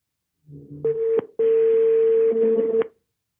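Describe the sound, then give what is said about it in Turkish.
Telephone dialing a call: a few short electronic dialing beeps, then one long, steady tone, clean and loud with no voices. “kuzenimi arıyorum.”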